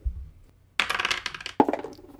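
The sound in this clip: Dice rattle and clatter for a three-way roll-off in a tabletop game, with a quick burst of hard clicks followed by a second sharp clack.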